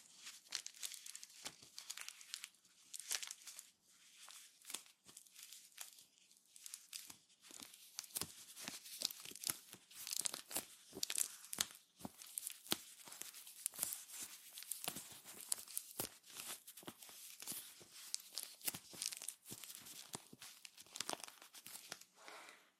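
Blotting paper crinkles as it is dabbed on skin to lift excess moisture before aloe vera gel during a facial treatment, giving many soft, dense papery crackles and rustles in a steady, uneven stream with no talk.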